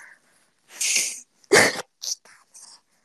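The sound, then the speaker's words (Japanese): A person blowing their nose: a couple of strong, breathy nasal bursts followed by a few shorter, quieter snuffles with gaps of silence between them. “なんでさ、鼻噛む音をみんなはじらうの？”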